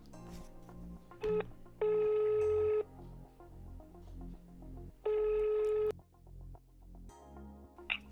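Ringback tone of an outgoing telephone call. Two long, steady, loud ring tones of about a second each sound well apart, with a brief tone before the first, over a low background.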